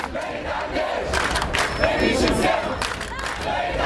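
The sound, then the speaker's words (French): A crowd of protesters in Tunisia shouts and chants at a demonstration after a cabinet reshuffle. Loud massed voices rise and fall in bursts, forming a continuous, forceful din. “En Tunisie, vous l'entendez dans une manifestation, une des manifestations qui a suivi le dernier remaniement ministériel.”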